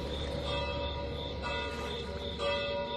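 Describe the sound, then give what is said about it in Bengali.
A large church tower bell, rung by pulling its rope, sounds in repeated ringing strokes at an even pace. Each stroke carries a sustained metallic tone, and the whole is fairly faint and heard alone. “ঘণ্টার শক্ত দড়ি ধরে বার কয়েক টান মারায় টাওয়ারের উপরের বড় ঘণ্টাটা ঢং ঢং করে বিচিত্র শব্দ করে উঠল।”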